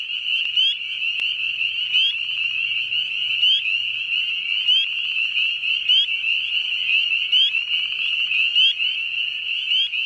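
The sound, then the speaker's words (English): Spring peeper frogs calling in a dense chorus that sounds as the weather warms, a shrill, high continuous peeping with rapid overlapping calls at an even loudness and no voices. “spring peepers should start peeping as soon as the weather warms a little bit. And if they're singing, you can hear them.”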